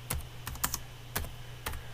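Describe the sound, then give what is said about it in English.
Keys clack on a computer keyboard: a handful of separate, irregularly spaced keystrokes, each a crisp tap, over a low, steady hum. No voices. “Yeah, I'll type that in there so you can.”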